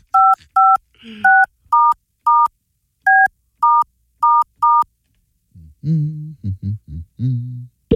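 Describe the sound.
Nine short telephone touch-tone dialing beeps sound at a fairly even pace, each a crisp two-note electronic tone. A voice follows after the dialing.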